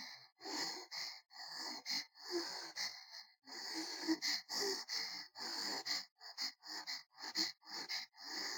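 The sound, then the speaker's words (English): Fast, rhythmic breathing: a steady run of short, breathy gasps and exhales, many in quick succession at an even pace, heard alone without talk. “Listen to the sound of my breath.”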